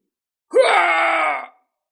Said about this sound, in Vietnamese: Đột nhiên tên tổ vương vừa bị thương hét to